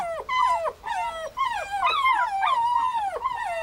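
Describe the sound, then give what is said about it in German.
Puppies whimper and yip as they greet an older dog. Many high, whiny cries with falling pitch come in quick succession, fairly loud and without speech. “Tanjas Hundewelpen begrüßen ihren großen Bruder”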